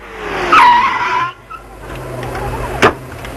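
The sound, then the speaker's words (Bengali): A bus pulling to a stop on an evening street, its brakes letting out a loud whining squeal that holds for most of a second, then low road rumble and one short sharp burst near the end. “এই রোক রোক, বাস বাস বাস।”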